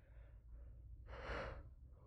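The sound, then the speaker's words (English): A yawn, heard as a single faint, breathy, drawn-out intake of air that swells and then fades, with no talk. “A lot of yawns tonight. A lot of yawns.”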